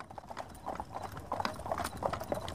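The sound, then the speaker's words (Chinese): Hooves clip-clop steadily as a horse-drawn carriage travels along, a quick, uneven run of many hollow knocks over a faint background rumble. “东宫马车出了明王府，径直朝皇宫而去。”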